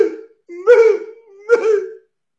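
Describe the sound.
A voice imitates a woman's wailing cry with three loud, wavering moans: a short one, then two longer, rising-and-falling wails, heard alone without other talk.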